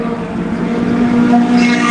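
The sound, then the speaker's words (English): Race cars roar past during an SCCA Super Tour road race at Buttonwillow, one running right on another's bumper. The engine note is loud and continuous, with a sharp whine building and rising toward the end. “Coming right by me now, a great race, STU, Ryland Hazleton with Nathan Pope, Tim, right on his bumper.”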